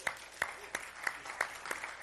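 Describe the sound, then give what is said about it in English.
A church audience gives a round of applause as faint, steady rhythmic clapping. About seven sharp, evenly spaced claps land over a quiet background. “And, let's give a round of applause if you enjoyed that this morning.”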